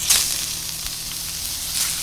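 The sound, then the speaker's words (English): Meat sizzles on a griddle, seasoned with garlic, onion, cilantro, turmeric, cumin, coriander and chili powder in the style of Mumbai street lamb kebabs. It makes a steady, bright hiss with a light crackle throughout. “And he seasons them almost sort of like the lamb kebabs you'd see on the streets of Mumbai. Garlic, onion, cilantro, turmeric, cumin, coriander, chili powder. I mean, the works. And then onto the griddle.”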